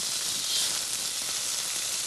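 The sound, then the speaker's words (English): Sizzling sound effect loop: a steady, dense hiss that holds at an even level for its whole length, with no distinct pops or crackles standing out and no voices. “Okay, go ahead and hit your sizzling loop”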